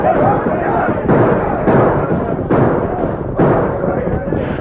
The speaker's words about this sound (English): Then, surprised and desperate, the Gila Kid and his men opened fire.